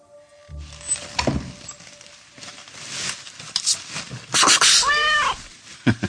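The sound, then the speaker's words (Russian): A cat meows once, clearly, near the end, after a stretch of rustling, knocks and shuffling noises. “Что, мяу? Сейчас покормлю. На, кс-кс-кс-кс.”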